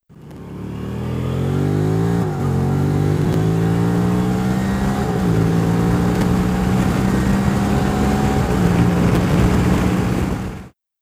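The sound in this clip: A motorcycle exhaust at highway speed drones loudly and continuously for about ten seconds, with a steady engine note broken by a few brief dips in pitch and no talk.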